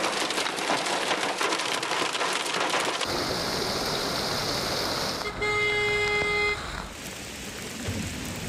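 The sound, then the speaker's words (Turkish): Heavy afternoon downpour over city streets with flooded roads and struggling traffic: a dense, loud rain hiss throughout, its texture shifting partway, with one sustained car horn blast sounding clearly near the middle. “Başkente öğle saatlerinden sonra başlayan sağanak yağmur etkili oldu.”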